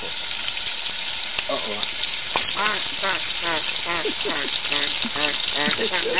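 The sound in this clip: Food fries in hot grease, a steady crackling sizzle that runs throughout while a man talks over it.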